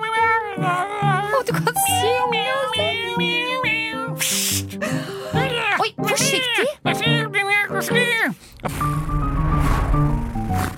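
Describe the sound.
A cat meows repeatedly, with drawn-out, wavering cries of shifting pitch, while a person talks to it.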